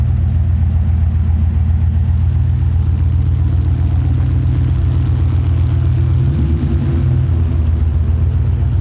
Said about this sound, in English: Let's see if he'll rev it for us.